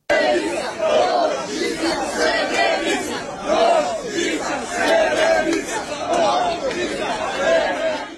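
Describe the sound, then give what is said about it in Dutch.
Protesters in the streets of Serbia chant together in a loud, repeating rhythmic pattern, many voices rising and falling in regular waves over a constant crowd din. “Alma, ik wil eerst beginnen met wat geluid waar te horen is dat mensen scanderen op de straten in Servië.”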